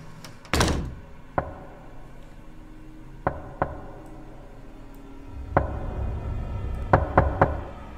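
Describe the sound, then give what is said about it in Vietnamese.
Knocks on a door at night sound out as a series of sharp, hollow raps, spaced irregularly against a quiet background, with one heavier thump near the start and a quick cluster near the end. “Tiếng gõ cửa vang lên trong đêm vắng rõ lắm.”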